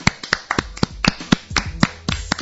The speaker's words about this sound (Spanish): Un aplauso. Bravo, venga.